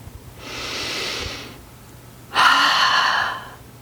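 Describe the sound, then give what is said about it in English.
A slow, open-mouthed exhale like fogging up a mirror makes a breathy, rushing hiss. A softer breath comes first, then after a pause a louder and longer airy exhale follows, with no talking. “start by taking a deep breath and slowly exhale with a wide mouth. Almost like you're fogging up a mirror. Let's try it now.”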